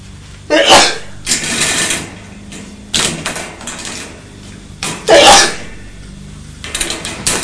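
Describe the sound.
A woman sneezes several times in short, sharp bursts. Two of the sneezes are especially loud, and quieter breathy sounds fall between them.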